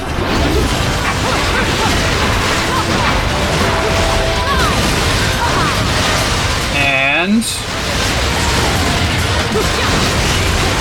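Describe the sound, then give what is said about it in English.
Loud, dense crunching and smashing game effects from a torture attack that ends in gore in a video game. A brief whining tone sweeps through the middle. “There we go. Another torture attack on the second one. Or one torture attack on each, we should say. And turns into gore.”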